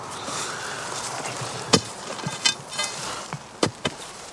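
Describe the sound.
Blows of an iron bar driven into hard soil while loosening the ground to dig a grave: several sharp, irregular thuds and scrapes over a low, rustling background.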